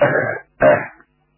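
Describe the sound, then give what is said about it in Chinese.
A light, soft cough, voiced as two short throaty bursts separated by a brief gap, heard alone without any speech. “王永江轻轻的咳嗽了一声，”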